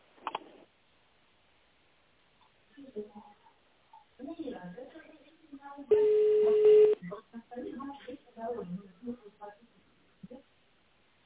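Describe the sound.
Telephone tone while an extension is dialled on a business line: one steady electronic beep of about a second, cutting in between stretches of recorded voice prompt.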